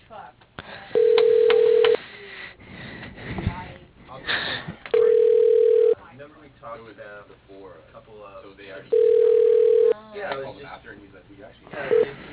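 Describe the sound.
A telephone ringback tone plays on an outgoing call just before a voicemail is left: three steady, mid-pitched rings of about one second each, evenly spaced several seconds apart, with quieter voices and line noise in the gaps.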